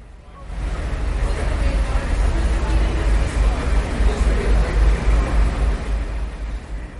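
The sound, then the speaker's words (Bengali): Traffic in Washington before the presidential inauguration: a steady, rumbling wash of vehicles driving past, heavy in the low end. It swells in after a moment and eases slightly toward the end. “শুনছিলেন হয়তো কিছুটা অস্পষ্টভাবে হলেও গাড়ির শব্দ, যানবাহন চলাচল করছে সেই শব্দ আমরা শুনতে পেয়েছি।”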